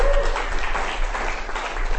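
Audience applause after a poet finishes a performance at a literary reading: a thick, continuous rush of many hands clapping, holding steady and fairly loud throughout.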